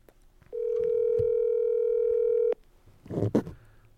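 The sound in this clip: Steady telephone ringback tone heard while calling someone: one unbroken electronic ring, about two seconds long and fairly loud, followed by silence and then a brief muffled burst of noise.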